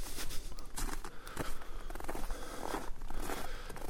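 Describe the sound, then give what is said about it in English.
Footsteps of a hiker climbing a mountain trail: many faint crunching, scraping steps in an uneven rhythm, mixed with rustling like clothing or gear. “It's different kind of walk today. Hiking up.”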